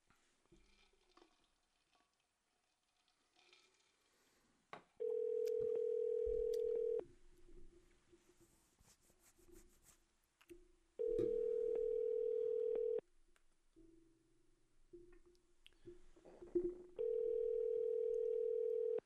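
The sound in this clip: Ringback tone of an outgoing telephone call: three steady, loud tones of about two seconds each, spaced roughly six seconds apart, over a faint, quiet background.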